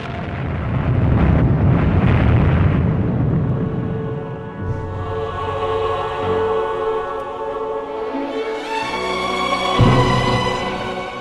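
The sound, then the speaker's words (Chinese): Explosion of the atomic bomb dropped by the United States on Hiroshima and Nagasaki, Japan, in 1945: a loud, deep, continuous rumbling roar that fills the whole stretch, with sustained tonal layers rising over it in the second half. “美国向日本广岛和长崎投掷了原子弹”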